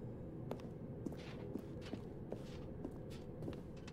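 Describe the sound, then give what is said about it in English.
Soft footsteps climbing a staircase toward an office in a video game, a steady, evenly spaced run of faint taps over a low, constant background hum. “Coming to a staircase, Stanley and the bucket walked upstairs to the boss's office.”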